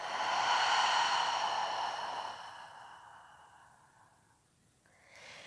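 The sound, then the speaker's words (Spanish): A long, deep breath during a guided meditation, drawn in through the nose and released through the mouth. It is loud and breathy at first, then fades to quiet. “Inhala profundo por tu nariz. Y suelta por tu boca.”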